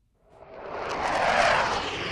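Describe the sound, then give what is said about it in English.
A fighter jet flies over London, a broad rushing engine roar that swells up out of silence and then stays loud and steady to the end. “A jet fighter tears through the London sky.”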